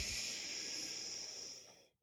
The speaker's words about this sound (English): Good, but breathe in through the heart. Inhale.